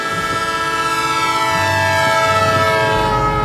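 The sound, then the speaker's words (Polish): A loud, piercing locomotive whistle from an approaching train holds one steady, harmonically rich pitch for the whole clip, sounding continuously over a low rumble. “Uderzenie poczuł w tej samej chwili, kiedy do huku dołączył wiercący gwizd lokomotywy.”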